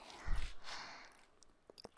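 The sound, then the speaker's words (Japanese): Soft breath blown into the ear, heard as a low puff followed by a gentle airy whoosh, then a few faint mouth clicks in near silence. “耳に息を吹き込みながらやるのもいいみたいだね。こうやってふーって吐息とか鼻息も。”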